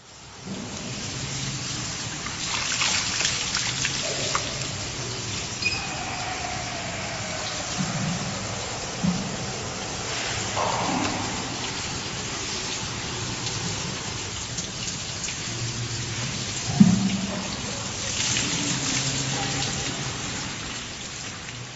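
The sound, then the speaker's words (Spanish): People at a Japanese public bathhouse pour water over themselves with bath buckets. Steady rushing, splashing water runs throughout, with a few louder splashes and sloshes rising out of the wash. “El sonido de la gente echándose el agua con los yuoke es el que caracteriza a los sento.”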